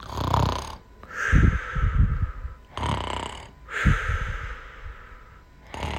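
Snoring while napping, slow rhythmic breaths with rasping, snorting inhales and softer exhales, a few full cycles repeating at an even pace.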